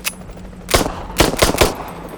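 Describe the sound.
An M9 semi-automatic handgun fires in a video game: a few sharp, separate single shots at uneven intervals over a low background hum.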